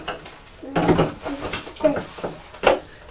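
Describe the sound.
A kitchen cupboard is opened and searched, with a few knocks and clatters of items being moved around inside, the loudest bursts near the start and end.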